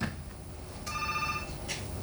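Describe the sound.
A telephone rings on a radio phone-in line: one short, steady electronic ringing tone, then a brief second burst, over a constant low background hiss.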